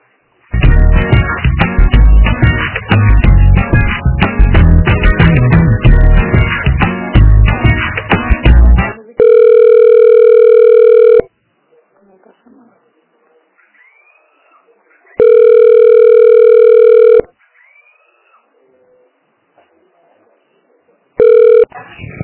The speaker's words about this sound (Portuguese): Tá, só um momento que eu vou transferir a ligação, tá?